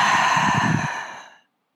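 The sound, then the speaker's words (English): A deep exhale released after a held breath during a guided breathing exercise: one long, breathy, steady rush of air that fades away over about a second and a half. “Take a deep breath in through your nose. Hold. Exhale.”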